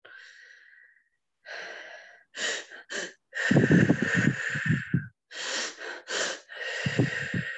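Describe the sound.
A breathing exercise done through the mouth: pairs of quick, sharp inhales followed by one long, drawn-out breath, with the pattern repeating a few times. The breaths are clear and close with short gaps between them.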